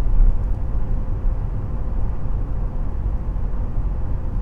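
Steady low rumbling drone of a car, the Deliverator, driving through an S-curve corner, holding an even loudness throughout with no voices.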